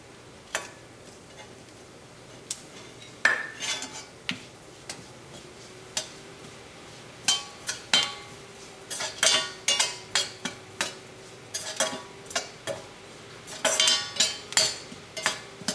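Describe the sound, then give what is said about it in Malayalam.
Turmeric and chili powder are stirred in a pan over low heat: many irregular, sharp clicks and taps of a utensil against the pan, sparse at first and growing denser toward the end, with no talk. “തീ നന്നായിട്ട് കുറച്ച് വെച്ചിട്ട് മഞ്ഞൾപ്പൊടി ചേർക്കാം ഒന്ന് mix ചെയ്ത് കൊടുക്കാം നമുക്ക് ഇതിലേക്ക് മുളക് പൊടി ചേർക്കാം”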